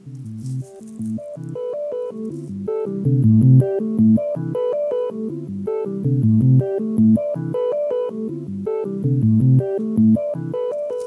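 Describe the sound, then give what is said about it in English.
A bleepy electronic bass loop built on a looping device that quantizes beats: short synthetic tones repeat in a tight rhythmic pattern, mostly low and bright, playing alone without voices. “I will play you just the bleepy loop that it came up with first, which sounds like this.”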